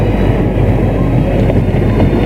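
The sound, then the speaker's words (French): A train rumbling at a railway station, a steady, loud low roar with a faint clatter that holds evenly throughout. “Cliff a amené Didier à la gare de Lyon.”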